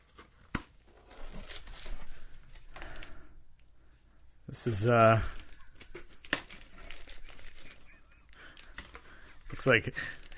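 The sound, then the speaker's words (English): A brief tearing burst from a letter opener slitting tape on a package, the blade getting gummed with tape, sits amid talk, with faint crinkling elsewhere. “It's getting a little gummed up on the letter opener. I think a lot of that is from Kevin's tape from that last package.”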